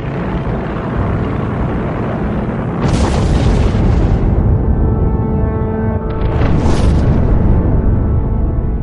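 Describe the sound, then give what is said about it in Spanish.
Bombs exploding during a 1940 air raid on London: a loud, continuous low rumbling roar with two heavier booming surges that swell and fade. “Las bombas empezaron a caer sobre Londres.”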